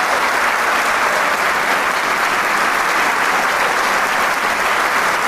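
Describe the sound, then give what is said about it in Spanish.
An audience applauds after a chamber orchestra performance. The clapping is a thick, even, loud roar that continues without a break for the whole stretch. “Estamos sin palabras ante el aplauso que lo dice todo.”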